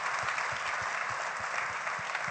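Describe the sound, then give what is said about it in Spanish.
Applause from an audience during a bilingual church service, a soft, dense patter of many hands over a regular low thumping beat that repeats steadily throughout. “An applause for this, please.”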